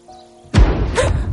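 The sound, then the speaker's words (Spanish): A battleship fires its cannon in a strait: one deep, heavy boom erupts after a brief quiet lead-in and rolls on into a sustained rumbling tail. “En el estrecho, un acorazado dispara un cañón.”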